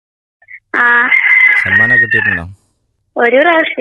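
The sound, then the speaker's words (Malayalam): Chicken sounds from birds kept at a home: a long, strained, harmonic call, with a low human voice overlapping its end, then another burst of calling after a short pause. “ഞാന് ശബ്ദം ഇപ്പൊ കേട്ടു, ഒരു കോഴിയുടെ ശബ്ദാണ്.”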